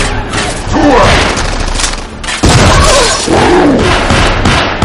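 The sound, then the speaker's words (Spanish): Gunshots fired at the mummy of Imhotep in a film action scene: a loud volley of booming shots and crashing impacts, with voices mixed in. “el dispara a la momia de Imhotep.”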